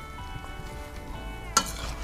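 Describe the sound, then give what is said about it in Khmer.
Mixing an ambarella salad by hand with lime, shallots and herbs: a soft, continuous wet rustle and stir, broken by one short, sharp clink. “រួចយើងលាយវាចូលគ្នា”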